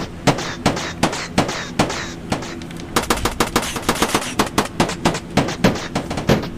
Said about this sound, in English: You're getting shot right now.